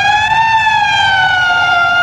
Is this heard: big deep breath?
no